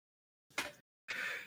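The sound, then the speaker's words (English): Pained gasping breaths, two of them: a short, sharp, airy gasp followed after a pause by a longer, steadier breath, both quiet with silence around them. “Sorry, it hurts to breathe sometimes.”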